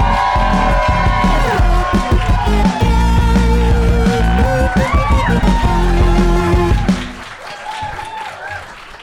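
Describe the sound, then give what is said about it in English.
Studio audience applauding and cheering loudly for guests arriving at a comedy panel game show. The clapping and cheering hold steady, then cut off sharply near the end, leaving a quieter tail. “You got one woo there. Just the one woo.”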